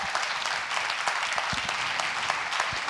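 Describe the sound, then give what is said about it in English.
A church audience gives a warm round of applause as a man is invited up to speak. The clapping is dense and steady, with crisp individual claps throughout and no voices. “I want to invite my friend Gerald Lorenzo up. Give him a warm, relentless welcome, please.”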